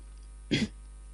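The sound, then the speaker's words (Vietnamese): A single gentle throat-clearing cough, short and soft, alone over a steady low hum. “Văn Nhất Phi nhẹ nhàng ho khan một tiếng”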